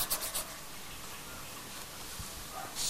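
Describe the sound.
Pencil scratches on paper while a picture of a girl is drawn, a faint steady rasp of strokes that gets a little louder at the start and end.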